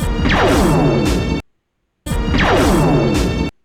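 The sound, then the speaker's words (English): The Farsight XR-20 weapon from a video game fires twice, each shot a loud, identical burst lasting over a second with a high sweeping whoosh that drops in pitch, separated by a clean gap of silence. “That sounded XR20. That's the Farsight. Yeah, Farsight. Yeah, the XR. Yeah, it's Farsight XR20.”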